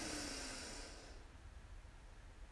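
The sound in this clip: A single deep breath drawn in: a soft, airy hiss lasting about a second that fades into near quiet.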